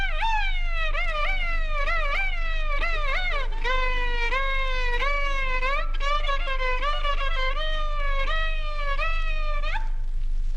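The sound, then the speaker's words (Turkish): A baby cries on and on, in a story about a naughty little one who kept crying. The high, loud wail runs continuously for about ten seconds, with repeated sliding pitch sweeps and no talk. “Fakat küçük yaramazmış, mütemadiyen ağlıyormuş.”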